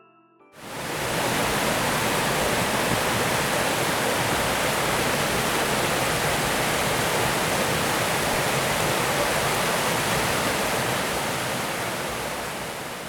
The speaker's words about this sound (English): It was a waterfall.